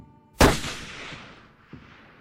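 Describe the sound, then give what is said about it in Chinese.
Sniper rifle shots fired from about a hundred metres: one loud, sharp crack with a long decaying tail, then a softer second shot about a second later. “两女取下身后的狙击枪，退后至百米外的距离开始架枪。 爆头。”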